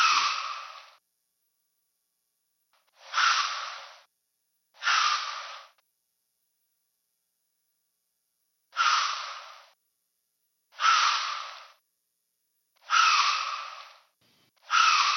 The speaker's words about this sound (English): And that's actually called a snort, or deer, sometimes it's commonly referred to as deer blowing at you. It's kind of, it cuts through, it's a louder, higher pitched noise, and it lets the other deer hear it.